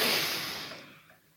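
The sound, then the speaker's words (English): A single long, breathy exhalation from a deep breath starts fairly loud and fades away over about a second, with no talk. “I want you to humor me for a second and take a deep breath, everybody.”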